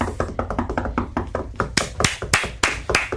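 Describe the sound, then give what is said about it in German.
Scattered claps from a few audience members at a comedy show land as sharp, irregular smacks. They start sparse and grow louder and more spaced out toward the end. “Danke, herrlich. Ein toller Applaus.”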